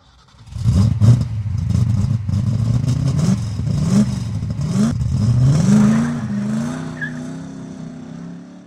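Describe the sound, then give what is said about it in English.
An old F-Coupe car speeds over dirt and gravel. Its engine revs hard and climbs in pitch in a few rising steps, then settles into a steady high drone that fades slightly at the end. “I drove as fast as the old F-Coupe could go, kicking up dirt and gravel behind me.”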